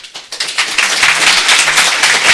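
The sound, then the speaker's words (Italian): Crowd applause fills a school assembly, starting as a few scattered claps that quickly swell into dense, loud, steady clapping that holds to the end. “Segue alla fine del video un applauso della folla.”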